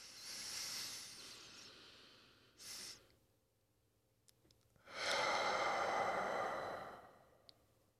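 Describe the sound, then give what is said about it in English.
Slow, deep breathing during a guided breathing exercise: long, soft, breathy airflow, a short sharper breath in the middle, then another long, full breath that gradually fades. No talking. “And this last breath is, take your time.”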